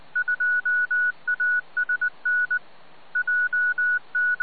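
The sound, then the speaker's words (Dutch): Telephone-style keypad beeps over a radio channel: many short, steady tones fired in quick bursts with one brief pause partway through, heard alone without voices. “Ja, er wordt van alles gepiept.”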